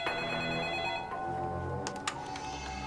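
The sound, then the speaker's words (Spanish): A telephone rings with a steady, continuous electronic tone while someone prepares for a trial. Two brief clicks break in near the end. “Mientras se preparaba para el juicio, recibió una llamada que afectaría profundamente su caso.”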